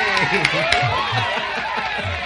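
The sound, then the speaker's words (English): A canned crowd cheering sound effect: a dense, loud wash of many voices shouting and calling together, holding steady for its whole short length without pause. “It's nice to have a robotic crowd”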